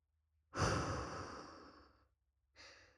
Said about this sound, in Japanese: 落ち着くまで深呼吸を。鼻から吸って。口から吐いて。